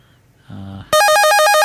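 A telephone rings for an incoming call. A few quieter tones come first, then a loud, bright ringtone of rapidly alternating high and low beeps takes over.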